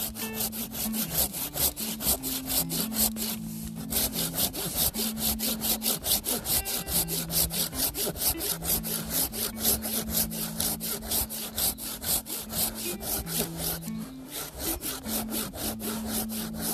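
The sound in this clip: A brush-clearing saw cuts through a tree trunk more than 30 cm thick, making a long run of fast, even rasping strokes that stay loud and steady, with two brief breaks.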